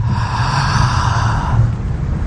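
A deep breath drawn in during a guided relaxation exercise: one steady, airy inhalation lasting about a second and a half, then easing off into a softer tail, with no talking.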